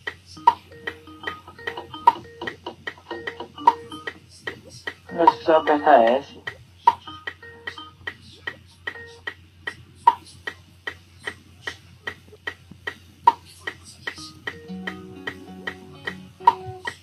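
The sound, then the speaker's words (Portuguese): A metronome ticks in a long, even series of sharp, dry clicks at a steady moderate tempo, many beats in a row with little else around them. “Eu tô escutando o seu metrônomo.”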